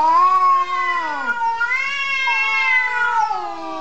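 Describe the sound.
A cat meows in one long, drawn-out call. Its loud, wavering voice dips and rises and stays clear, with no talk over it.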